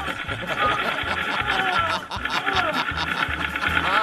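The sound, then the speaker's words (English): The Sew and Go Sassy Stitcher suture tool, from a mock product ad, stitches with a rapid, steady mechanical chugging like a sewing machine, its even low pulses repeating throughout with only a brief break partway. “That's why we developed a more feminine suture tool for the gals that's just as fast but fashionable, too. It's the new Sew and Go Sassy Stitcher.”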